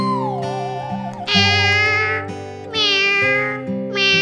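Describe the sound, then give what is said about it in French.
A cat meows with a drawn-out, wavering cry over sustained musical chords, and bright tonal bursts follow. “Chat, es-tu là ?”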